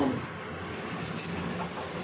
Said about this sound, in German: So, jetzt fahren wir hier am Gleis einmal hoch zum Bahnsteig.